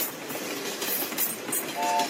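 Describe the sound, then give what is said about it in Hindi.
A train arrives at a station with a steady, loud rumble and rattling wheels on the track, and no voices over it. “और ये मक्के शरीफ पर train को रोका गया है जनाब। मक्का शरीफ में ट्रेन आकर रुकी है।”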